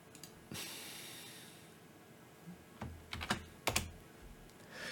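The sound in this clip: Typing on a computer keyboard while adding a link: a brief burst of keystrokes early on, then a quiet stretch, then a few sharp clusters of clicks near the end, with no voices.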